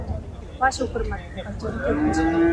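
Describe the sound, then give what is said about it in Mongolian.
Holstein dairy cattle mooing: a sustained, low, tonal moo swells near the end, with people talking over it. “Тийм, манай хуаши өхөр малж байна.”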